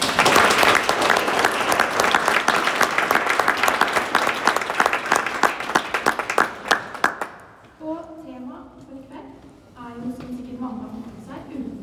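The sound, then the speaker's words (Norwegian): Warm audience applause at an artists' talk: dense clapping for about seven seconds that thins into scattered claps and dies away, followed by a person speaking. “Og en varm applaus til dem.”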